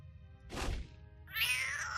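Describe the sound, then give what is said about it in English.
A cat meowing: a short, dull thump comes first, then a single high, clear harmonic meow fills the final moments, fairly loud and alone. “What the hell is that, a cat?”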